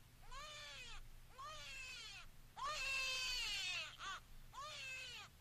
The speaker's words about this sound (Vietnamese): Tiếng khóc cứ văng vẳng đâu đây trong hành lang.